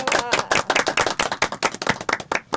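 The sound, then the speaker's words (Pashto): A quiz show audience claps to reward a correct answer, a crisp, fast stream of many sharp hand claps with a lively, slightly uneven pulse and no voices. “بالکل سم جواب دی راکړ چکچکی ورته وایي”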